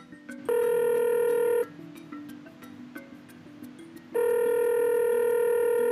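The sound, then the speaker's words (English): Ringing tone of an outgoing telephone call: two long, steady electronic rings separated by a pause of about two and a half seconds, with faint hiss and small clicks between them. “Dialing. Call him.”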